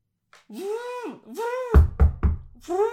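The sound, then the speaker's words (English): Three heavy, booming thuds of someone slamming on scaffolding to fix it land in quick succession, between wailing, moaning vocal sounds. “We have to fix the scaffolding. We have to slam it harder”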